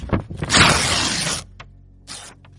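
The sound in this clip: A sheet of paper torn from a book in one loud, long rip, set between a few shorter crackling rustles of the page.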